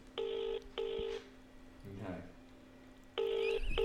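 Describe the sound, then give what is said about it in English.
Touch-tone keypad beeps sound as a phone number is dialed on a handset. A few steady dual-tone beeps come in a quick pair, then a pause with a soft rustle, then more tones over a low, constant hum. “so I'm going to call that number and see if they answer.”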